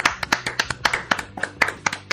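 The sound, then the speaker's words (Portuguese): Applause at a tennis tournament's prize ceremony: many sharp, separate claps in quick succession that sound like a small number of hands, at a fairly steady pace without cheering. “Por favor, todos de pé. Uma salva de palmas para Dom Deliciano Lopes.”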